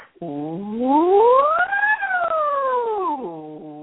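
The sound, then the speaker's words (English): A voice imitates a fire siren in one long, loud, smooth whoop. The pitch glides steadily upward, peaks about halfway through, then slides back down. “You make like a siren, like a fire siren, like,”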